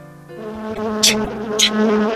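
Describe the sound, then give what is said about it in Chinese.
Buzzing of a small bee flying in through a window, a steady droning hum with a couple of brief brighter swells partway through. “就在这个时候，有一只小蜜蜂从窗户飞了进来。”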